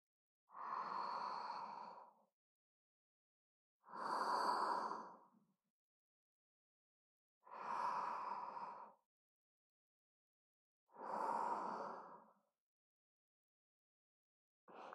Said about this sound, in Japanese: まずは深呼吸してみようか。ほら、お姉さんに合わせて息をしてみて。